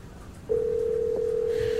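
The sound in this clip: Ringback tone while calling someone by phone: after half a second of quiet background, a single steady low-pitched tone starts and holds to the end.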